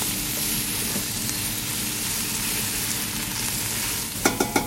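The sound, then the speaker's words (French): Asparagus and carrots sauté in a pan until caramelized, giving a steady, dense sizzle throughout, with three sharp knocks near the end. “Là, on va tout faire revenir. Il faut vraiment que ça aille vraiment jusqu'à caramélisation.”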